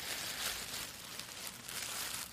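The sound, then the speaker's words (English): A plastic bag holding a large pack of preserved food being handled, a soft, continuous crinkling rustle, faint and fairly even, with no voices. “here I have some of this large one. I put into a plastic bag.”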